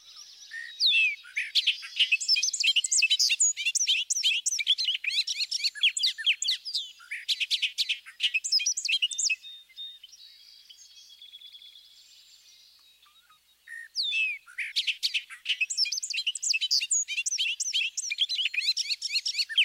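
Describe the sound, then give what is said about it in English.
Bobolink song in bubbly, tumbling runs of rapid high notes that crowd over one another, heard alone in two long bursts separated by a brief quieter stretch. “Listen to the bobolink's bubbly song that gains speed and complexity as it moves along.”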